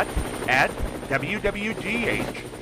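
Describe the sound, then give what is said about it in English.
Thudding helicopter rotor noise from the WWGH News Chopper, a news helicopter over Marion, Ohio, runs as a steady low pulse beneath a man talking throughout. “keep an eye out for the WWGH News Chopper flying high overhead”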